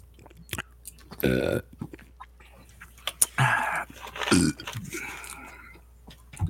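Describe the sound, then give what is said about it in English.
An attempted burp made during a drinking game, heard as a few short, throaty bursts separated by quieter gaps, with no talk. “sometimes when you try to do like a really good burp, and it comes out sounding like a queef. Yes, I just tried that.”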